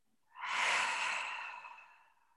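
A deep, slow breath taken in through the nose down into the belly and then let go. It is one long, soft, airy rush that swells quickly and fades gradually over about two seconds, with no talking.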